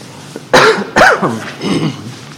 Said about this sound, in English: Excuse me, I have a tickle in my throat.